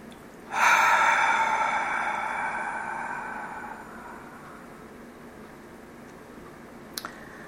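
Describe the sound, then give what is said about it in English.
A long, slow, deep breath taken to center oneself at the start of a guided meditation. It is one sustained, airy breath that gradually fades over a few seconds and is followed by quiet. “we're going to begin by taking some long, slow, deep breaths in order to center ourselves.”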